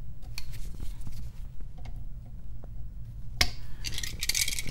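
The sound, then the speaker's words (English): A sharp snip of wire cutters trims exposed wire while a residential occupancy sensor is installed in a shallow wall box. One crisp click stands out over a low, steady background hum, with faint ticks of handling around it. “These are not very deep, so there's no point in having that much wire exposed. So I'm going to trim a little bit of that off.”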